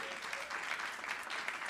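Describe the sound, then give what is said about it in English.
Audience applause at a literary evening celebrating a ten-year story-swap anthology: dense, even clapping from a crowd, sustained at a steady level throughout with no voices rising above it. “I am going to ask for a round of applause because that's a huge achievement.”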